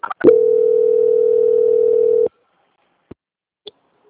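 A telephone call transfer tone: a single steady, mid-pitched tone held for about two seconds, then cut off abruptly, followed by two faint clicks.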